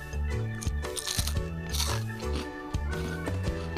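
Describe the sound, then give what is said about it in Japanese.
Crisp crunching as someone bites into a takoyaki-flavoured puff pastry snack: a few dry, brittle crackles over a steady tonal background. “うん想像と違ううんすごいめっちゃたこ焼きの味ですもちろん甘みもあるんですあのサクサクのパイ生地”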